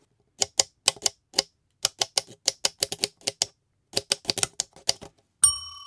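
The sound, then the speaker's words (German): A typewriter sound effect made by tapping a latte macchiato cup gives many quick, sharp clacks in irregular bursts with brief pauses. It ends with a bright bell-like ding. “Das ist immer der Test. Die Schreibmaschine. Und erklären Sie mal kurz, wie Sie das produziert haben, dieses Geräusch. Das ist ganz einfach ein Latte Macchiato-Becher,”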